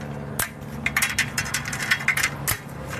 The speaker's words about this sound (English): Then he snaps light strings in place on that track.